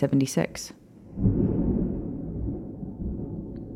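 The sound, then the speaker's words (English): Thunder rumbling in the background, a low, rolling roar that swells after a short burst of voice sounds and then holds on, gradually easing. “I really hope you guys can hear the thunder in the background because it is impressive.”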